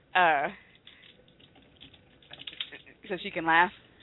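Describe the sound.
Typing on a computer keyboard, soft scattered key clicks in the middle, framed by brief vocal sounds at the start and end.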